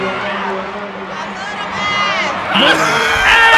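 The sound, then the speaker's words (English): Studio audience cheering, whooping and screaming as actor Michael Ealy is announced: a loud, sustained crowd roar with shrill cries that swells toward the end. “And here is Michael Ealy gets announced. And listen to the audience, though. They wouldn't stop. This went on for about a minute or two.”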